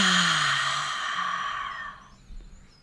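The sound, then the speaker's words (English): A deep breath drawn in through the nose and released: a long, soft, breathy exhale that gradually fades over about two seconds, followed by a short, faint puff of breath. “So take a deep breath in through your nose. Hold it and release.”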